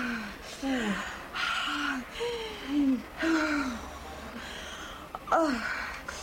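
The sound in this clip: Strained, gasping breaths from a woman about to give birth in hospital, each catching inward with short voiced whimpers that rise and fall in pitch, repeated several times over a steady low background hum.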